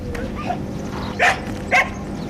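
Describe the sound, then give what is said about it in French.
An excited sheepdog barking in greeting at a goat farm, two sharp loud barks after a fainter yip, over a steady background hum. “on est accueilli par le chien de berger qui a très envie de faire la fête.”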